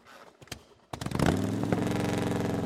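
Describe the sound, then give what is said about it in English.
A motorcycle engine starting, with a few dry clicks before the engine catches, briefly revs and settles into a loud, steady rumbling idle. “Virat climbed on the motorcycle and started it.”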